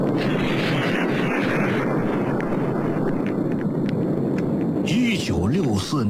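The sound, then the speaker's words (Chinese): The 1964 test explosion of China's first atomic bomb is a loud, continuous, deep roaring rumble that barely varies, with a voice briefly heard near the end. “1964年10月16日，陈开甲他们付出巨大心血的中国第一颗原子弹爆炸试验取得圆满成功。”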